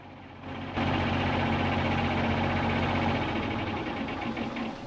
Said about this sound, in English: Smoke spirals up from the tractor's bonnet-mounted exhaust pipe. Then the engine is turned off.